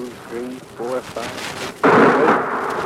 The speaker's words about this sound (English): They're whistling overhead now. There it went. The first one exploded over there, and the sound ought to be here any minute.